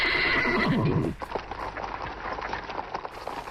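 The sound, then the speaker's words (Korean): Loud horse-like whinnying from mules pulling a flower-decorated carriage fills the first second, then gives way to quieter, irregular clattering hoofbeats that run to the end. “갑자기 말발굽 소리와 말 울음소리가 요란스레 들려왔다.”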